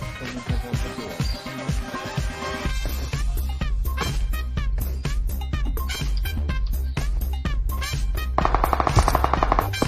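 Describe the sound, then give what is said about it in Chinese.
Video game gunfire during a team shootout: dense bursts of rapid automatic shots over a steady low rumble, building to near-continuous fire with a brighter buzzing tone near the end. “左边的枪声，另一队在左边。”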